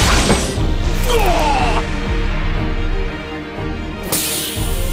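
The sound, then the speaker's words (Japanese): Loud whooshing and crashing effects for Triangle Shoot, a triangle kick attack that creates phantoms. A dense, roaring burst carries a sweeping swish early on, dips briefly, then ends with a fresh bright impact near the end. “ああ、見せよう、トライアングルシュート。幻影を生み出しての三角蹴りだ。”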